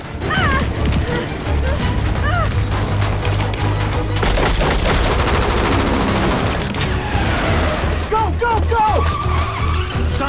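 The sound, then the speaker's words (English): Gunfire and a van reversing at speed as its occupants trade fire with troops: rapid bursts of shots and sharp cracks over a loud, roaring engine and screeching tyres, dense and sustained throughout. “the van speeds in reverse. The terrorists return fire on the FBI troops.”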